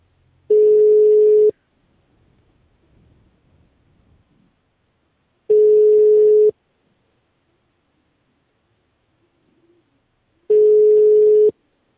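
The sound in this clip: Three steady telephone ringback tones ring unanswered on a phone call. Each lasts about a second, they come roughly five seconds apart at the same pitch, and a faint low murmur fills the first gap.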